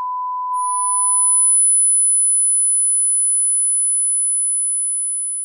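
Two pure electronic tones from a device whose principle uses two high-frequency tones, one fixed and one variable. A clean mid-pitched tone sounds for about a second and a half, then a very high, thin tone holds steady to the end.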